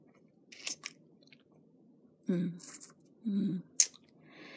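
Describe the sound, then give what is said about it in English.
Wet sucking and smacking mouth sounds as someone sucks on a finger, a few soft, moist bursts separated by short pauses, faint over quiet background noise. “I lift it to my mouth, sucking on it.”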